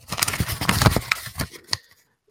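A paper envelope is handled and opened at an award announcement: a run of crisp, papery rustles and tearing crackles, followed by a pause and one last sharp rustle.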